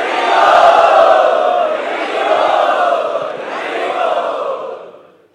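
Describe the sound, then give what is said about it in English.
A crowd loudly chanting Hare Krishna in unison, voices swelling in three long sustained phrases before fading away at the end. “We would like to welcome him by loudly chanting.”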